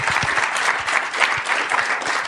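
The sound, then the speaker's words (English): Applause from an audience at the close of a meeting: a dense, even crackle of many hands clapping, fairly loud and continuous throughout. “I think he deserves a round of applause, and thank you.”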